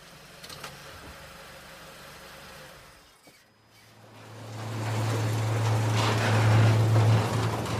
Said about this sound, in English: The police vans drive into the underground parking.